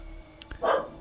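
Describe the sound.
A single short dog bark, fairly faint, rising briefly above quiet background noise.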